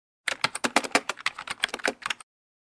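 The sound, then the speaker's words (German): Quick typing on a keyboard: a fast, uneven clatter of many crisp keystrokes lasting about two seconds and then stopping, with no voices. “Ich schreibe das schnell auf.”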